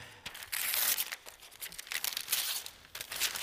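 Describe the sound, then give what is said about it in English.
Wrapping being torn and crumpled off a wrapped cardboard cutout, a few loud bursts of crinkling and ripping separated by short pauses, with no voices. “Are you ready? I'm going to unwrap it for you, just like we did on that night when we had our Christmas party.”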